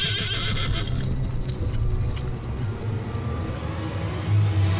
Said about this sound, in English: But it rears up on its hind legs, snorting and frothing, filled with nothing but dread.